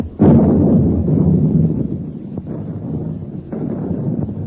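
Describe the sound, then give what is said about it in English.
Guns firing back: a loud, deep boom bursts out and rolls into a long rumbling decay, followed by a few sharper, quieter reports. “Blimey, the dummies are firing back.”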